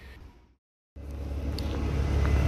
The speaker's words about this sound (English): here I am back on the Park and Ride bus. You can probably hear a very noisy engine behind me. We're just waiting to leave the terminus.